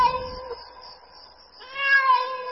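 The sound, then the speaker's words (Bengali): A cat meows twice in quick succession. Both calls are drawn-out and tonal, and the second is louder and slightly higher. “তারপর বিড়ালটা কোত্থেকে জানি দুবার ম্যাও ম্যাও করে উঠল।”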